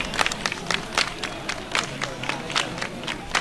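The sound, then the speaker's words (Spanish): A crowd claps right beside a procession float, sharp hand claps in loose, uneven bursts over a constant murmur of people. “De hecho, es que estamos prácticamente junto al paso y escuchamos esas palmas.”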